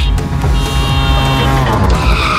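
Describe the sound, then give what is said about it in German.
A tuk-tuk drives past with a loud, buzzing small engine and a steady high whine over a rough low rumble, heard on its own throughout. “Da ist auch gerade eben das Tuk-Tuk durch Deutschlands Bigste Beats gefahren.”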